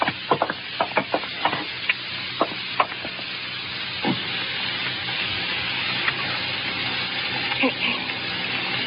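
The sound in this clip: A record being played on a machine: a run of sharp mechanical clicks at the start, then a steady hiss with faint scattered crackles.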